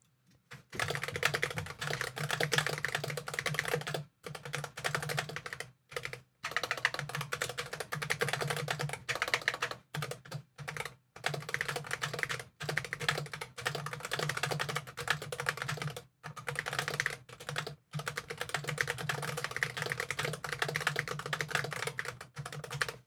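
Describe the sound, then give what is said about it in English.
Notes being typed on a computer keyboard: many quick, soft keystrokes in bursts separated by short pauses, fairly faint and steady for over twenty seconds, with no talking. “bear with me a sec while I just type up some notes.”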